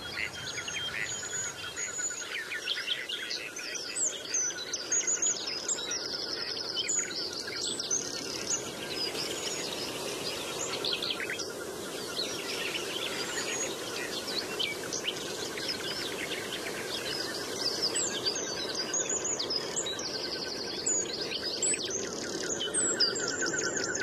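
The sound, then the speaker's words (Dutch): Birdsong from a bluethroat and a nightingale in the Kennemerduinen dunes by a lake, singing through the night: dense, continuous high chirps, trills and whistled phrases without pause, steady in loudness, with no voices. “Die vogels brengen eten en zo. Doen dansjes. Maken een mooi geluid. Dat is die blauwborst in die nachtegaal. Gaan de hele nacht doorzingen.”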